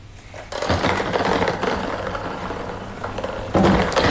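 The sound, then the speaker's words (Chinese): Numbered balls tumbling in a lottery drawing machine at a live seven-digit sports lottery draw, a dense, steady rattling clatter that starts abruptly after a brief quiet moment and continues throughout, growing slightly louder near the end. “请工作人员启动摇奖机”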